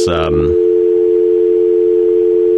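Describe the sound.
A telephone speed-dials into a conference call: a short, rich burst of tones, then a loud, steady dial tone that holds unbroken for about two seconds.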